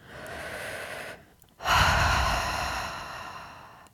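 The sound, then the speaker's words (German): A deep conscious breath in and out during a relaxation exercise: a steady, airy inhale, a short pause, then a longer, louder exhale that gradually fades, with no talk. “atme dreimal bewusst tief ein und aus.”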